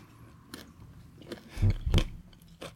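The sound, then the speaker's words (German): Chewing and biting of a vegan Lidl bratwurst: a few moist, crunchy bites, with the two loudest close together near the middle, and no talk. “Mm, Essgeräusche, Leute.”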